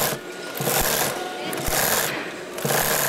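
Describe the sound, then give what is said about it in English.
Sewing machines running in a textile plant where workers stitch organic-cotton pants: a dense, continuous mechanical whirring and rattling, fairly loud and busy, with slight dips and swells in intensity. “100 young Indian men and women sit behind sewing machines working on pants for the European market.”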